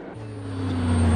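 A truck drives on down the road after a roadside crash, its low, steady engine drone growing gradually louder over the short stretch.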